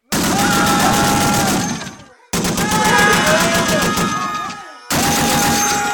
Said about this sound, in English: you might want to point that submachine gun in the other direction. What? Oh, yeah. Good idea, given the hair trigger on this thing.